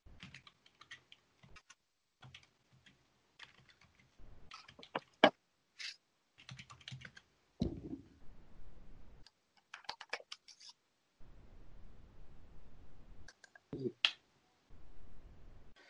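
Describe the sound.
Keys clacking on a computer keyboard as someone types a search, in quick irregular bursts of light clicks with short pauses, while people talk between and over the typing.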